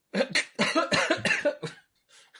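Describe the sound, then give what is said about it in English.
A person coughs in a series of rough, breathy bursts, several close together, then a fainter final cough after a short pause. “That's an appropriate cough.”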